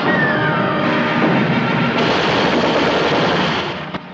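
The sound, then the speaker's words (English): Anti-aircraft guns fire at Mosquito aircraft flying down a fjord, a loud, dense and steady barrage of gunfire that thins and fades near the end. “Two more Mosquitoes run the gauntlet of the anti-aircraft fire and head down the fjord.”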